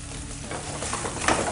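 Breaded pieces browning in hot oil in a pan: a steady, hissing sizzle with fine crackles that grows slightly brighter toward the end.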